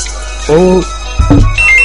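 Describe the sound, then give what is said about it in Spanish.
A telephone ringtone chirps in steady, high electronic tones near the end, after brief speech, over a low background hum. “Teléfono.”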